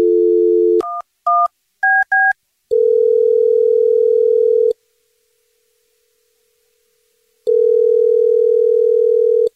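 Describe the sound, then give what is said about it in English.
A telephone dial tone while placing a call, followed by four quick keypad beeps at rising pitches, then two long ringing tones separated by a silent gap. No voices. “Okay, here we go. I'll call her right now.”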